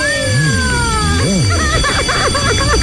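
An incoming telephone call rings as a warbling electronic ringtone, its tones swooping up and down over a steady high hum, loud and continuous.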